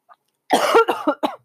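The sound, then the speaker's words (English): A rapid burst of several loud, harsh coughs from someone suffering a cold, following a faint brief sound, the fit coming in quick clustered bursts with no talking. “oh, excuse me. Give me a minute. All right, thanks for hanging in there. I got another cough attack.”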